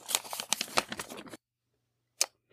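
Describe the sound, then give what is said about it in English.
A paper envelope is ripped open: a crackly tearing rustle lasting just over a second, then a pause and one brief, quieter rustle. “why don't you rip open that envelope and let us know what is in the Baltimore Ravens sample.”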